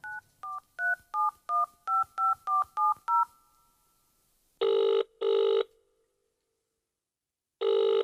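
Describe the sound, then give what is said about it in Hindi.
Telephone dialing tones: about ten short keypad beeps in quick, even succession, then long ringing tones, two close together and a third after a pause. “Dial करके देखिबा”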